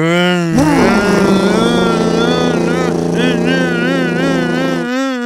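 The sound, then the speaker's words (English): A boat engine that had run out of fuel and needed a new battery catches with a sudden burst, then settles into a loud, steady drone while the propellers begin turning. A wavering voice-like tone overlaps it. “He's pumping the gas. Black smoke's coming out. The propellers start moving.”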